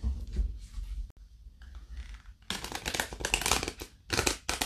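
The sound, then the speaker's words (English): Tarot cards from an archetype deck are shuffled and pulled: soft papery rustling at first, then denser, crisp riffling bursts that run on through the second half. “I was wondering if we might pull a card for our listeners. Absolutely. Amazing. And so I'm working with Kim Kranz's archetype deck.”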